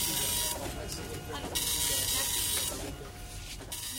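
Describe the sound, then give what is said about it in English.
A new seven-colour computer printer, under development at an Indian electronics firm, runs with buzzing mechanical passes that repeat in a rough rhythm, each burst whirring over a faint steady hum. “Sudesh Bansal, managing director for Essen Electronics, proudly shows us a new seven-color printer his software division is developing.”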